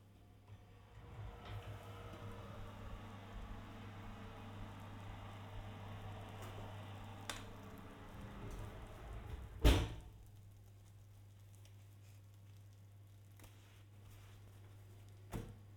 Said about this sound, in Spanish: Ahora vamos a proceder a sacar la pasta precocinada del horno. Lo haremos con unas manoplas gruesas y lo más largas que podamos para evitarnos quemaduras. Y las colocaremos sobre un protector.